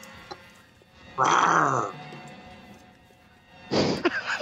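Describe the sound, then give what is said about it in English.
A cougar growls twice, each a loud, rough snarl with a throaty rasp. The first lasts under a second, and the second comes a couple of seconds later and runs to the end, both over a quiet background. “What was that? That was a cougar growl, apparently. That's not the cougar growl I like.”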